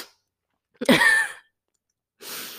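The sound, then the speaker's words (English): A single sneeze bursts out as one sharp, noisy blast that tails off quickly, standing alone with near-silence before it and a soft breathy noise some time after. “Oh, sorry, that was a sneeze.”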